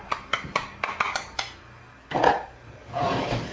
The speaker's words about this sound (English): Get you a little spoon. Where's that little spoon? Here we go.